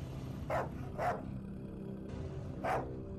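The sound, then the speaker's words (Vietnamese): A dog barks three times, short faint barks, two close together and a longer pause before the last, over a low steady background hum. “Mấy tiếng chó sủa phát ra ngay bên”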